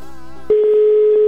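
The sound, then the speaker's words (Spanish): A telephone line tone plays while a call is being dialed. A brief harmonic sound gives way to a steady, loud single-pitch tone that holds unchanged to the end. “Ya lo estoy marcando, ¿eh?”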